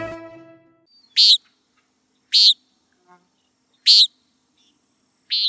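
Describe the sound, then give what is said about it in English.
Common nighthawk calling: four short, buzzy, high nasal notes, evenly spaced more than a second apart and clear against silence, after a brief voice at the start. “That's the call of the common nighthawk.”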